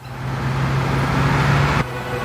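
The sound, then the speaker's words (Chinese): A bus engine gives a steady, loud low rumble with a droning hum, then cuts off sharply near the end and leaves a quieter background noise. “快看，公交车！”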